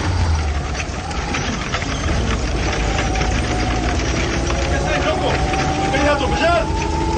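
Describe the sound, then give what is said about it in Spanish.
The engine of a Rastrojero pickup truck loaded with gas bottles drives along with a steady, rough drone and a faint knocking texture. A voice talks over it throughout. “Paco conduce una rastrojero atestada de garrafas de gas envasado.”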